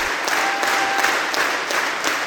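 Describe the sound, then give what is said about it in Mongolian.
Audience applause for a Mongolian morin khuur ensemble at the Sydney Opera House: dense, steady clapping from a large crowd, loud and even throughout with no pauses. “Энэ бол Сидней дөрийн театрт Монголын морин хуурын чуулга бүрэн бүрэлдэхүүн нэрэ анх удаа тоглоход нийт үзэгчдийн илэрхийлж байгаа сэтгэл хөдлөл.”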